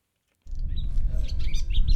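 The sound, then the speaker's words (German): Birds sing outdoors beside the North Sea dike, starting after a brief silence. Many quick high chirps and tweets scatter over a steady low rumble, fairly loud, with no talk. “Draußen, direkt am Nordseedeich in Friedrichskoog, singen die Vögel.”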